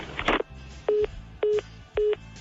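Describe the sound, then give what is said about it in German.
Telephone keypad dialing on a studio phone: a brief noisy burst, then three evenly spaced electronic beeps, each about a fifth of a second long and steady in pitch, with no voices. “Wir haben direkt bei Franz angerufen”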